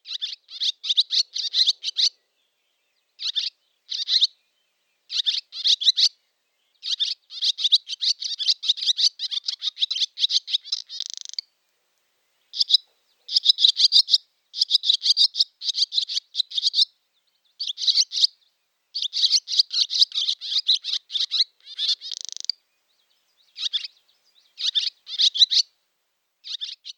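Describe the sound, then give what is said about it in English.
Swallow song in summer: many rapid, high, twittering chirps delivered in bursts separated by brief pauses, continuing for the whole stretch without voices. “The mystery sound was, of course, a swallow. This distinct song is one of the true signs of summer.”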